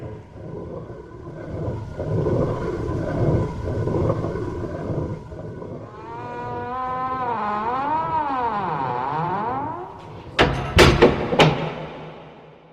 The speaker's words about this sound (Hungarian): A tanár úr belépett, bezárult mögötte a kopálkastély hatalmas kapuja.